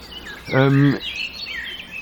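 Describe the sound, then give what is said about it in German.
A single harsh crow call rings out over an open field, loud and drawn out for under half a second, with faint birdsong in the background before and after. “Was ist denn los mit dieser Krähe? Was hat sie denn?”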